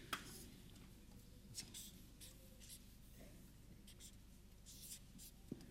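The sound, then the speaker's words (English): Faint, scratchy strokes of words being written on a board come in short, irregular bursts over a quiet background, with a few small taps between them. “While I write some of these words, okay, on the board.”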